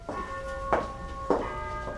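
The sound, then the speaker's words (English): A doorbell chimes at the front door of a nursing-home house. Three quiet bell tones strike about half a second apart, each sustaining and overlapping the next. “rings the doorbell. Every visitor has to.”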